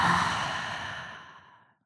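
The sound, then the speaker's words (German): A deep breath let out through the open mouth, one long airy exhale that starts fairly loud and fades steadily to silence in under two seconds. “Atme mal tief ein durch die Nase und durch den geöffneten Mund aus.”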